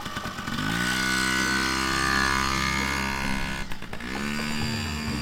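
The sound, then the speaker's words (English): Engine of a Yamaha PW50 minibike being ridden, a steady, buzzing drone that holds an even pitch, briefly dips near the end, then picks up again. “The PW felt like an old friend, but I kept reaching for a rear brake lever with my right foot. It's a fun bike”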